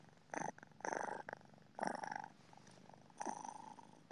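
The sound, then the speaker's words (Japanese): A cat purrs faintly in four rhythmic bursts separated by brief pauses, the last one longest, with a soft rumbling texture. “これって入ってんのかな、マイクに。猫のぐるぐる音ってさ、なんか、周波数がどうのとかで。”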